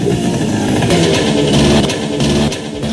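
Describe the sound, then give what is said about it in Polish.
A motor scooter's engine drones continuously while being ridden, a steady mid-pitched rumble with rattling clatter and slight swells in loudness throughout. “Kupiłem ten skuterek za butelkę whisky, a teraz jadę ponad 1000 km tylko po to, żeby wejść i zjechać z Mont Blanc.”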